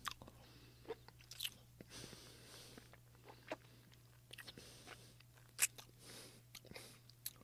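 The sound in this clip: Soft crunching and chewing of a carrot-flavoured treat, with a handful of quiet bites scattered over steady mouth sounds. The sounds are faint and there is no talking.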